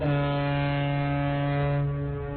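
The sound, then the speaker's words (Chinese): A cargo ship loaded with new wheat sounds its horn as it departs on the Yangtze River: one sustained, steady, deep blast with rich harmonics, loud and unbroken, fading slightly at the end. “长江滔滔，奔流不息，一艘艘满载新麦的货轮鸣笛起航。”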